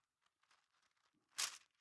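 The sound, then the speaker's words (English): Bible pages stuck together with too much tape being pulled apart: soft papery rustles, then one short, loud ripping peel before it fades back to faint crinkling. “Pages are sticking together, too much tape.”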